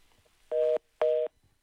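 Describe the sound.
A telephone tone after a call-in caller's line drops: two loud, steady beeps of equal length, separated by a short pause, over faint background hiss.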